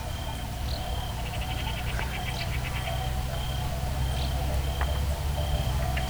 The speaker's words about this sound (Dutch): En je hoort het gechirp op de achtergrond dat meer op de voorgrond komt ook.